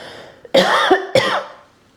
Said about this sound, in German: sorry, ich muss kurz husten